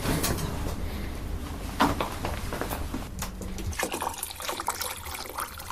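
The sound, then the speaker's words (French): Hot water being poured, a steady, splashy trickle that runs without pause, with a few faint knocks and clunks mixed in. “On va mettre un peu d'eau chaude aussi.”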